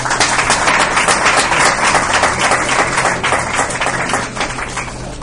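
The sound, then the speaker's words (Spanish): Applause from an audience: dense, continuous clapping throughout, loud and even before easing slightly near the end. “Un aplauso.”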